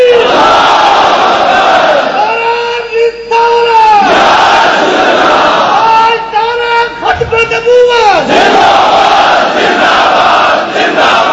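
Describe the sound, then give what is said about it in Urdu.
A large crowd chants the religious slogan Tajdar-e-Khatm-e-Nabuwwat, loud, massed male voices roaring sustained phrases in repeated waves with brief pauses between them. “انج نعرہ کر کے لاؤ تاجدار ختم نبوت انج کر کے نعرہ لاؤ”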